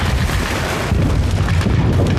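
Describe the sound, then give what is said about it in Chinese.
Artillery bombardment at the start of an attack: loud, dense, continuous booming rumble with no pause or clear gap between blasts. “报告司令官，炮击进攻时间到了。”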